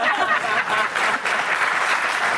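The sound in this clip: Audience applause answers a speaker's request for agreement at a live event: a broad, continuous patter of many hands that rises and dips slightly in loudness but stays sustained throughout.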